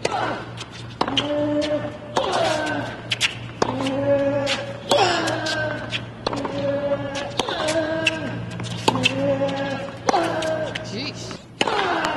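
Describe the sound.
A tennis player grunts during a U.S. Open match. Many rhythmic, loud, voiced grunts repeat, each with a sharp ball-strike thud.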